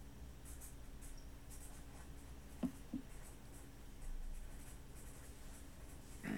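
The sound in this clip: Pen writing on paper, a faint, steady scratching and rustle with two brief louder taps partway through.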